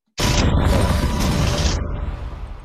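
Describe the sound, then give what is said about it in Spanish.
A Green Goblin bomb explodes in a Spider-Man film: a sudden loud blast that roars on for about a second and a half, then fades into a rumbling tail. “Una bomba de duende verde.”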